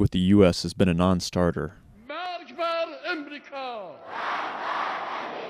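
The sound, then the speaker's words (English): Crowd chanting at a 2007 rally held by Iranian president Mahmoud Ahmadinejad: a man speaks first, then a loud unison chant of many voices rises, followed by a sustained roar of crowd noise. “What you're hearing is a rally in 2007 held by Mahmoud Ahmadinejad, Iran's president from 2005 to 2013. The crowd is chanting, "Death to America,"”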